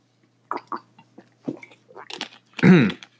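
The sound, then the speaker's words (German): Someone takes a quick drink: a few soft sips and small mouth clicks, then a louder swallow near the end. “so kurz was getrunken, weil ich immer einen trockenen Hals bekomme, wenn ich so lange rede.”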